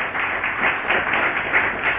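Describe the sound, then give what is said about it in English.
Congregation clapping in a church service for the woman leading a prophetic ministry team, a steady, muffled patter of many hands throughout the short span with no talk on top. “Can you clap for her, please?”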